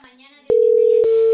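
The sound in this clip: A telephone call tone before the call is transferred to voicemail: after a short stretch of faint voice, a single steady, mid-pitched tone starts abruptly and holds loud and unbroken.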